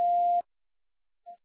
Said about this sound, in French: C'est à vous après le bip.